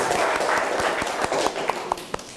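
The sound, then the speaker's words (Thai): A classroom of students claps to encourage a classmate, a dense patter of light handclaps that thins out into a few scattered, separate claps toward the end. “ทุกคนปรบมือให้กำลังใจเพื่อนหน่อยเลย”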